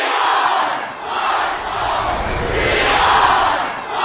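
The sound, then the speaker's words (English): Thousands of students shout the Thundering Herd football cheer in unison. The loud, rhythmic group chant swells and dips in repeated waves from many voices at once. “And then the silence gave way to the cheer that had echoed from the stands during games of the Thundering Herd team.”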